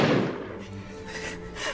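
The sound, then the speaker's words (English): A single loud gunshot from a Beretta pistol: a sharp, heavy blast at the very start that rings on and slowly decays over nearly two seconds. “McLean grabs his Beretta from its hiding place, taped to the back of his neck, shoots Hans high in the chest.”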